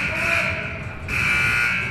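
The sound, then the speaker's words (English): A school buzzer sounds loud and harsh, one sustained, bright electric tone that breaks briefly near the middle and then carries on steadily. “And you never get sick of that buzzer. Never get sick of it.”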